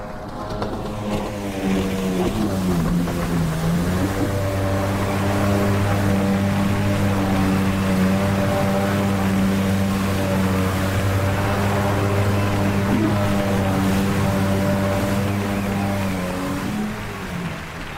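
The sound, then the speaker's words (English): A Yamaha jet ski engine revs on water, a loud sustained drone with strong stacked harmonic tones that dips in pitch early, then holds a steady throbbing roar for most of the run before easing slightly at the end. “He's up on his Yamaha. Yamaha! The only jet ski for me. All right, he's kicking up the engine. He's pressing down on the motors.”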